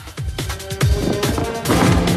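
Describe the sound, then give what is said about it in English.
A jet ski crashes into two people with a burst of loud smashing impacts, a few heavy, rough blows in quick succession over a harsh, noisy background. “The jet ski crashes into two other baddies.”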